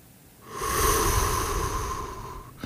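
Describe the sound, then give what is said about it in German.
A person breathes in slowly and deeply during a guided breathing exercise. One long, airy breath swells up and holds steady for about two seconds, with a faint tonal edge in it. “Vielleicht noch einmal einatmen”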